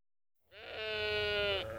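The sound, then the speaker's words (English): A lamb bleats once: a loud, wavering, nasal cry of just over a second rises out of silence, then breaks off abruptly. “Oh, look at the lambs.”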